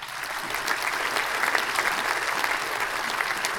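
Audience applause for a guest: dense, steady clapping from a crowd, moderately loud and unbroken for several seconds.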